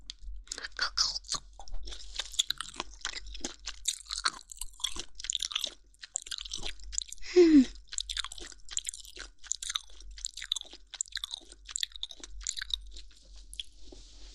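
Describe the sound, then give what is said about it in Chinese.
Crisp crunching as someone bites and chews a crunchy, crispy ear-shaped snack, many sharp, rapid crackles in an irregular rhythm against near silence. “让姐姐在这边的耳朵先咬一小口试一下，看味道和那边的有什么不一样不？”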